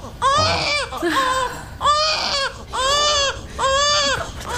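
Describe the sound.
An infant crying from hunger with no milk available: five loud, high-pitched wailing bursts separated by short breaths, each cry strongly tonal and strained.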